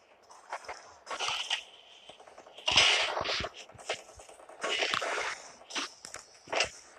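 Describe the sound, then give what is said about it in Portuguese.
Crunchy popcorn being chewed: many crisp, crackling bites and crunches in an uneven rhythm, fairly quiet and with no talking. “Nossa, tá muito bom essa pipoca, doido.”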